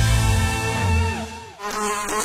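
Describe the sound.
Fly buzzing, a loud continuous droning whine with a rich, wavering pitch that briefly dips and thins near the middle before swelling back to full strength.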